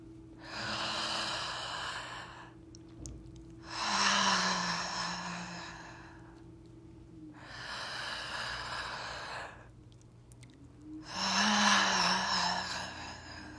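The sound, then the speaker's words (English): Deep breathing during a guided breathing exercise: four long, slow breaths, each a broad airy rush lasting roughly two seconds, separated by short quiet pauses, with no talking. “Three more breaths.”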